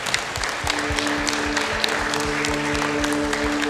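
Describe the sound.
A church audience claps for young people who have pledged to walk in truth. The clapping is dense and continuous, with sustained instrument tones and a regular low thumping underneath.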